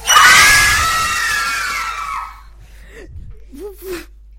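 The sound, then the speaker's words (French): A loud, high scream of terror, as after a bucket falls, holds for about two seconds and then fades, followed by a few short gasping vocal sounds. “Un seau tomba et un grand cri de terreur retentit.”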